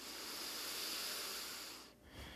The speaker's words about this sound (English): let's do a couple more deep breaths together. In through the nose, out through the nose, victorious breath.